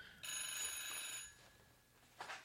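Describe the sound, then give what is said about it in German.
An analog telephone bell rings with a bright metallic trill. It sounds as one sustained ring of about a second, then stops, and a short, quieter burst follows near the end. No one talks. “jetzt klingelt hier mein Telefon. Warum klingelt hier? Das ist ein schönes Klingeln, das, ja, da. Das ist sehr analog.”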